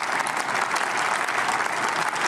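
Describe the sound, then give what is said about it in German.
Audience applause, an even, dense wash of many hands clapping that holds steady throughout without any voices standing out. “Warum erzählt er da irgendwie Märchen und die Leute klatschen auch noch?”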